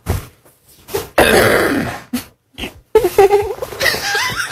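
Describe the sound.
A man gives a big, rough throat clear, a loud noisy burst of about a second among shorter hacking bursts, followed by voiced sounds.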